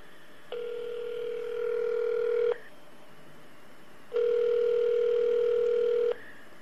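Telephone ringback tones sound while a call is being connected for a radio interview: two long, steady, loud tones, each lasting about two seconds, separated by a gap of low hiss.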